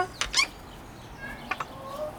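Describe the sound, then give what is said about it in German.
A mother hen and her chicks in an enclosure give a few short, faint clucks and high peeps in two brief clusters over a low, steady background, with no talk. “Ja, und dann gehen hier die Küken. Vorsichtig, bitte da nicht rummachen, sonst die Küken sind schon so nervös und die Mama auch.”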